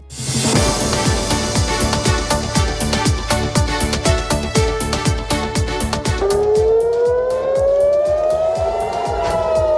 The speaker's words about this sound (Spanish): Este es el sonido de las sirenas que han sonado hace muy poco en Jerusalén y Tel Aviv.